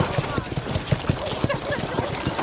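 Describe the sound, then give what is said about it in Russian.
A horse gallops, hooves clip-clopping in a quick, steady rhythm of many loud beats throughout, over a constant rustling noise. “на лошади скачет в Головинскую деревню”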